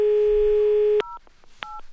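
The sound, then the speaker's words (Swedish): Telephone dialing a call: a steady dial tone holds for about a second, then cuts off and gives way to a couple of short keypad tone beeps separated by a brief gap. “Jag ska ringa till Simon.”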